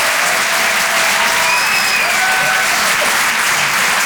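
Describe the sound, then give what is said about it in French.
Audience applause at a comedy club stand-up show: dense, steady clapping that fills the whole clip at an even, loud level. “Faites du bruit, s'il vous plaît, pour Nikos sur les chansons.”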